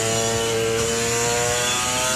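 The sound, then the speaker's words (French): A two-stroke 250 cc motorcycle engine runs with a loud, continuous, raspy buzzing drone that holds a steady pitch throughout. “c'est un son vraiment caractéristique du deux-temps. Surtout une 250”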